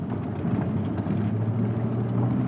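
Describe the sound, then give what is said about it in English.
An SUV drives along a rutted dirt road on the Pacific coast of Nicaragua, giving a steady low engine rumble with a constant drone and no voices. “He drives his new SUV along a rutted dirt road.”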